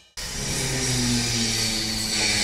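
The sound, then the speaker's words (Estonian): A V8 American car engine revs. The loud, dense roar cuts in abruptly and holds for about two seconds, with a low engine tone shifting underneath. “Tule ja koge tõelist jõu ning V8 mootorite atmosfääri.”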